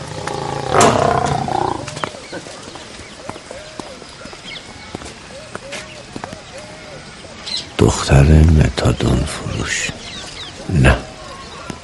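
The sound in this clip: Animals roaring at a zoo right beside a kiosk in a film scene, with a few loud roaring bursts rising over voices talking and background noise, the strongest of them near the end.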